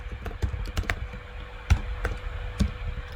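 Typing on a computer keyboard while entering text into software, with many quick, uneven key clicks and taps at a moderate level and no talking.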